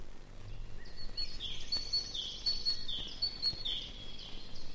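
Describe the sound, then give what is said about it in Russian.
Long-tailed tit song: thin, high-pitched chirps and short trills in a soft, irregular series, faint over a low background hiss. “Сейчас звучит ее песенка. Эту птицу зовут еще Ополовничек, потому что она похожа на разливательную ложку.”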